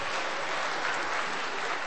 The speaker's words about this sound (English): Round of applause, Sam.